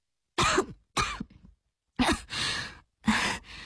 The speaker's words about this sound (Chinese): 紧张地咽了咽口水，却没出息地把自己呛着，咳嗽了好几声